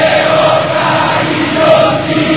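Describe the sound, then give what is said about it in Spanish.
Boca Juniors supporters cheering in their stadium as their team lines up a corner kick, a steady, dense crowd roar that stays loud throughout. “desde la punta izquierda se levanta el aliento del público de Boca, arco del Riachuelo, escúchalo, escuchate, si sos de Boca.”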